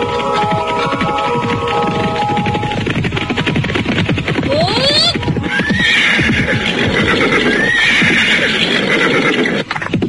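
A horse neighing with clip-clop hooves as it travels: a few loud, rising whinnies over continuous, rapid hoof clatter.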